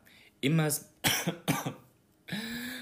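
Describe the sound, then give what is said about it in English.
A person coughs in a few harsh, hacking bursts in quick succession, with a short pause before a final, drawn-out rasping cough. “so I've been coughing recently a lot”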